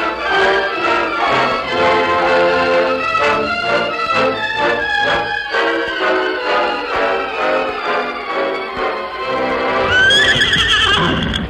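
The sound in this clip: Horses being harnessed to a freight wagon team whinny loudly and repeatedly. The long, shaky neighs tremble with rapid pulses, one after another, and end with a sharper, higher cry.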